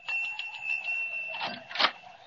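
A doorbell rung at a front door gives a steady, fairly bright ringing tone that holds for about two seconds, with a few rattling bursts toward the end.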